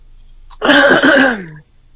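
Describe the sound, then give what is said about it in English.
One loud, rasping throat clearing lasts about a second, with a gravelly voiced growl that drops slightly in pitch before cutting off into silence. “Yep, that's the intro right there, the throat clearing.”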